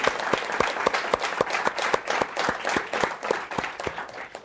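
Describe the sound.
Audience applause welcomes a guest speaker to a talk: steady, fairly faint clapping from a small crowd, individual claps standing out in a quick, even rhythm.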